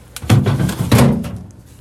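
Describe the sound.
A fridge door opening: two dull low thumps about half a second apart, moderately loud, with no talk over them.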